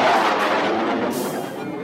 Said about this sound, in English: Stand by for ignition. Ready? Fire main thrusters! Now!